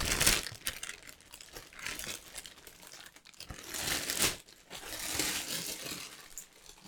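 Crinkling plastic packaging being opened around a clear item, with loud crackling rustles and tearing bursts coming in uneven waves.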